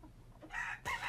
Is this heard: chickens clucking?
yes